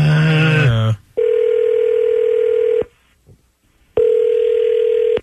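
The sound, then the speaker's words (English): Telephone call being placed: after a brief voice, a long steady electronic ring tone sounds, then a pause, then a second identical ring tone, both loud and flat in pitch. “dial him up”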